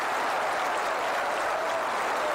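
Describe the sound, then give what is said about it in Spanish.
Audience applause at a live music show comes as a smooth, even, fairly faint hiss of many hands clapping. “Gracias, Víctor. Gracias, señor. Demasiado como para tan poco aplauso.”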